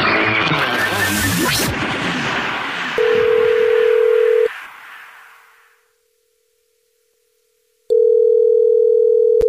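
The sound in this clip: A telephone call being placed: a noisy opening burst gives way to a steady dial tone, which cuts off and fades. After a silent gap, a steady telephone tone returns.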